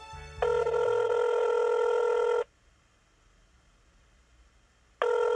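Telephone ringing tone while a call is being placed: a steady electronic ring lasting about two seconds, then a quiet pause before the next ring begins right at the end.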